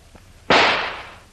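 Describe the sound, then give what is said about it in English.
A gunshot is fired at an old metal door lock: one sharp, loud crack that fades away over most of a second. “I'm going to try and shoot the lock off the door. Get back now. The bullet may bounce off the metal.”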